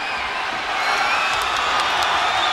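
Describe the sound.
A wrestling arena crowd cheers and roars in a dense, steady wash of noise that swells slightly midway, with a few brief shrill whistles or shouts on top.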